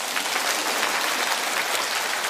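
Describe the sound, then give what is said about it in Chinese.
Audience applause during a talk on health and diet: a steady, dense wash of clapping that holds an even, moderately loud level across the whole stretch without clear individual claps. “鼓掌。”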